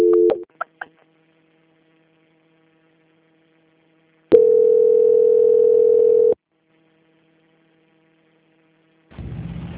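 Telephone line tones while a bank call is transferred: a few short beeps at the start, then after a silence a steady tone lasting about two seconds, and a final burst of noisier tone at the end.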